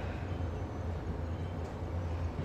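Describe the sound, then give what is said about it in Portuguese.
A subway train moves along in a faint, steady low rumble with a soft, even mechanical drone and no distinct events. “O metrô segue seu rumo?”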